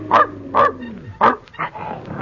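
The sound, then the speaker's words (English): Sharp barking from an elevator operator's dog at a hotel, a few loud, separate barks in quick succession with short pauses between them, heard alone without talk. “Where's that dog? Probably in the elevator.”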